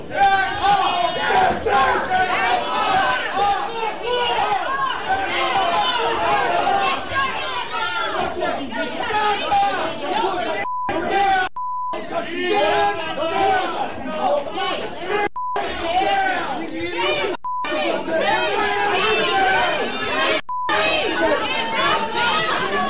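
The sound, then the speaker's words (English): Protest crowd at City Hall in Sacramento, California, over police not being charged in a killing: dense, loud shouting and overlapping voices that stay continuous, broken by a few short beeps and brief gaps. “Those are the sounds of a protest at City Hall in Sacramento, California”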